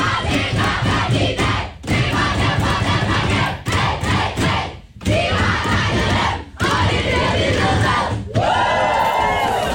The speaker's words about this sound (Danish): Det er lyden af de danske fodboldskvinder, det danske landshold for kvindefodbold, som altså var ret begejstret i omklædningsrummet i går, efter de havde slået Serbien